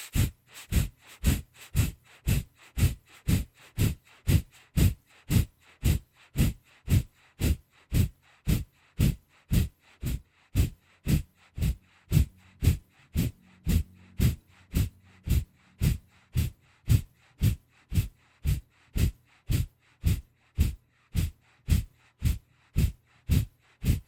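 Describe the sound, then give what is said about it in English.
Short, sharp staccato breaths forced out through the nose in a breathing exercise. The loud, snort-like puffs repeat many times in a fast, steady, even rhythm, with no talking. “Deep breath out, all through the nose. And let's begin and do it for 30 seconds.”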